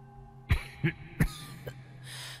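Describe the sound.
Four dry coughs in an uneven rhythm, each a short sharp burst, with the last one noticeably fainter; no one speaks.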